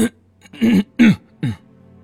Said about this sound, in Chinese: 小兔崽子，你咳嗽什么？